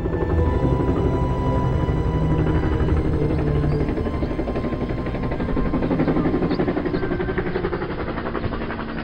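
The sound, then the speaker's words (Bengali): Helicopter rumbling above a base camp, a dense, steady low drone with a rapid pulsing texture that slowly fades. “হেলিকপ্টারের গমগমে আওয়াজটা ধীরে ধীরে মিলিয়ে আসছে।”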